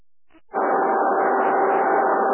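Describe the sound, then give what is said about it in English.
A radio's squelch opens on a radio link before a call. After a short quiet start, a loud, steady rushing hiss switches on abruptly and holds to the end. “Just before I start the call, I will open the mute or squelch on the radio, which sounds like this.”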